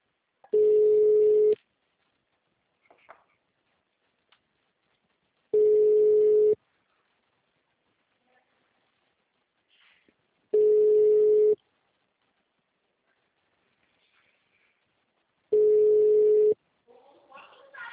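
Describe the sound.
Ringback tone of an outgoing telephone call: four steady, mid-pitched tones about one second long, evenly spaced with long silent gaps, plus a few faint clicks and rustles between them.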